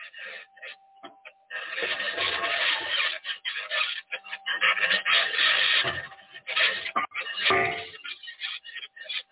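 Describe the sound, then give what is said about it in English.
A rock scraping against a rover wheel on Mars, a continuous, irregular rasping grind that swells and breaks off in uneven bursts, over a faint steady electronic hum from the rover's electronics. “That's a rock hitting the wheel. That's the electronics.”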